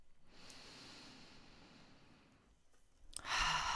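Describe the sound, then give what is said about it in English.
A deep breath during guided relaxation: a long, quiet inhale through the nose, a brief pause, then a louder, rushing exhale out through the mouth. “Take some deeper breaths. In through the nose and out through the mouth.”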